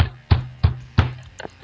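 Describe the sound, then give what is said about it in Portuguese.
Three heavy thumps of a hand banging on a table land at an even, quick beat, followed by a lighter tap. The thuds are loud and deep and are heard alone. “Muita gente teima em dizer, e eu vou bater na mesa aqui agora.”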